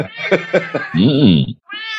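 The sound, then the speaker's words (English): A cat meowing: a quick run of short chirpy meows, then a longer wavering meow, and after a brief pause another meow begins. “Now the cat's getting in on the conversation.”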